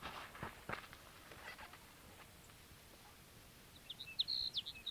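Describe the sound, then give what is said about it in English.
Sage Sparrow song: a short burst of thin, high chirping notes near the end, faint over a steady background hiss, with a few fainter high notes earlier. “Sage Sparrow number one.”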